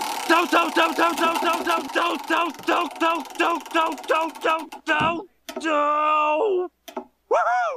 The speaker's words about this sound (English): Alrighty, let's give it a spin to see which episode we are watching.